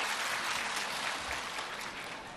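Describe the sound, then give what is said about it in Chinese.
Applause from an audience at a Buddhist gathering welcomes a speaker to the stage, a dense, even patter of many hands that holds steady and moderately quiet throughout without a break. “让我们掌声欢迎。”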